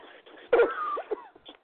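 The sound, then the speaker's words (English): Throat clearing from an itchy throat: one short raspy burst followed by a few brief voiced, strained sounds, heard alone and fairly quiet. “excuse me, an itchy throat, I'm so sorry”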